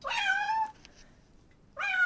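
A domestic cat meows twice, each a loud, clear, tonal cry separated by a pause of about a second, with no other sound between them.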